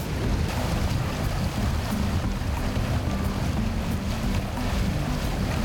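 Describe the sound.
Wind blowing outdoors on a boat heading out to cast a net for mullet: a loud, steady, continuous rush with deep rumbling low noise throughout and no talking.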